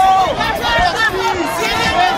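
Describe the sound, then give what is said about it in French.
A crowd in the Antilles cheers and shouts encouragement on a national holiday as a visiting figure is acclaimed; overlapping raised voices and calls swell and dip continuously, with shouts rising and falling in pitch. “Des cris, des encouragements. Bravo, continuez. On a bonne confiance en vous.”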